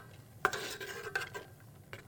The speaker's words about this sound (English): Okay, so I'm going to just let that start to boil for a little bit. And constantly stirring.